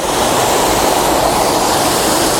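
Rushing waterfall roar: a loud, constant wash of falling water with an even texture from start to finish and no voices.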